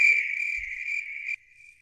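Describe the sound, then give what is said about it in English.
Crickets chirping as a comedy sound effect, a steady, bright, high-pitched trill that holds evenly for over a second, then drops suddenly to a much fainter trill that keeps going to the end. No voices are heard. “crickets. Yes, the crickets of applause, crickets.”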